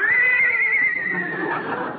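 A horse whinnies in one drawn-out, high, quivering call that slowly sinks and trails off into a breathy, rasping fade.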